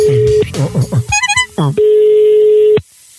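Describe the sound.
Telephone call being dialed: after brief voice sounds, a quick series of a few keypad tone beeps is followed by a long, steady, loud electronic tone that cuts off abruptly.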